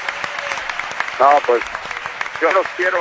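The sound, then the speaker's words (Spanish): Applause from the people of Oviedo for a football club, with bursts of voices rising above the dense clapping. “Pues Arturo Elías, este es el aplauso de la gente de Oviedo y del Oviedo.”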